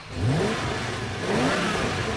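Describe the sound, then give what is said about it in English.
Two brand-new BMW cars rev their engines and drive off, a steady mid-pitched roar with short rising surges as they accelerate. “The BMWs follow.”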